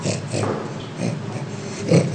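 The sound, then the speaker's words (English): An orangutan being tickled gives breathy, panting grunts and snorts in a rapid, uneven rhythm, with several stronger huffs throughout. “If you guessed that's the sound of an orangutan being tickled, you got it right.”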